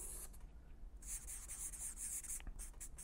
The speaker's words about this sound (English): When you go hang around people who have the results you want and are doing exactly what you want, this is exactly what's going to take place. Just draw these lines up here.